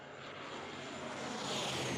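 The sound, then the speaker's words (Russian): A passing airplane gives a steady, airy whistling roar of engine noise that swells slightly toward the end, fairly faint and heard alone. “Свист пролетающего самолета.”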